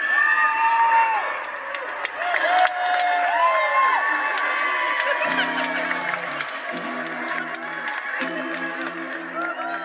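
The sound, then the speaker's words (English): A crowd cheers at Salem's North Shore Pride in 2022 with loud, continuous whooping, shouting and excited voices that rise and mingle throughout. “That was an audio recording taken during Salem's North Shore Pride in 2022. I love listening to this recording because you can practically feel the excitement in the air.”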